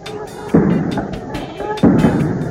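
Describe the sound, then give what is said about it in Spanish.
Sharp firearm gunshots crack during a 1969 street riot amid tear gas. A few irregular bangs stand out over a constant noisy din, with voices in the background. “Se escuchan también algunos disparos de armas de fuego.”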